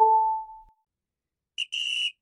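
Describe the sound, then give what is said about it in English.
Referee's whistle blowing to end a soccer match: a steady tone that fades away, then after a pause a short high chirp and a longer shrill blast. “That's the final whistle.”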